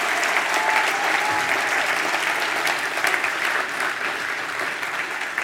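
Audience applause welcoming guests to a church ministry gathering: dense, steady clapping that holds at an even, fairly loud level throughout.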